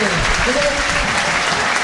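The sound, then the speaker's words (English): A football crowd applauds at the home stadium for a National League season-opening home game against Barrow: dense, steady clapping from many hands that stays at an even, loud level throughout. “And this is the sound of Victoria Park. Home once again.”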